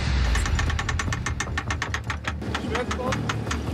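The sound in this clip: Rescue boat engines rated at 250 horsepower push against a ship's hull to free a jammed centreboard, giving a loud, continuous rumble with rapid, regular knocking pulses throughout.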